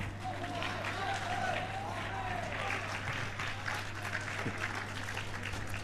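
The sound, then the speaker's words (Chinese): Audience applause at a live crosstalk comedy performance in Tianjin, a dense continuous patter of clapping held at an even level throughout, with a faint voice briefly audible beneath it. “首先感谢大家热情的掌声”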